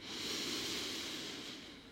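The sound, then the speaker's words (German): A deep breath drawn during a guided relaxation exercise: a single long, soft, airy rush of breath that holds steady for about two seconds, then thins slightly toward the end, with no talk over it. “Und gleich noch einmal tief einatmen”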